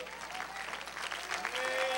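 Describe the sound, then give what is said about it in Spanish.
Weak, scattered applause from a church audience during a sermon. It is a steady patter of many claps that grows slightly louder toward the end. “Bueno, ese aplauso aguado, agárrenlo para ustedes.”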